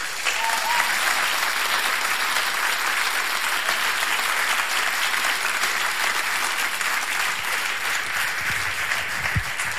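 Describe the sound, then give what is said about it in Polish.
Audience applause fills the whole stretch, a dense, even clatter of many hands clapping with no break or swell, loud and steady from start to finish. “Dla tych wszystkich, którzy tam są, którzy tam będą, dla Odnowy, dla Torunia, również brawa.”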